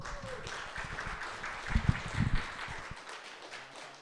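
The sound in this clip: A church audience applauds as a speaker comes up to the front. Faint, scattered clapping swells briefly in the middle and then thins out.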